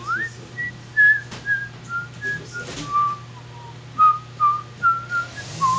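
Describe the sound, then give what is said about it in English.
A person whistles a tune in a long run of clear, sustained notes of mid-high pitch with short gaps between them. A steady low drone runs underneath throughout. “Okay, I'll just sit here and whistle.”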